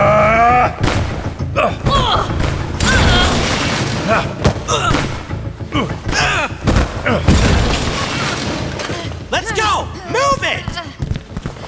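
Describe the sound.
Gunfire erupts in a dramatic scene, with many sharp, loud blasts and booms packed densely together, while people shout throughout over the shooting.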